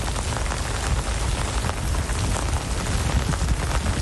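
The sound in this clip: Heavy rain pours down in a sudden downpour over Istanbul's Taksim Square. The dense, steady roar of drops hitting surfaces holds at an even level for the whole stretch, with no pauses.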